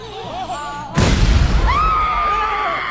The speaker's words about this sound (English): There's a bomb in the cake. Don't worry, I used to be a bomb guy. Everyone stand back!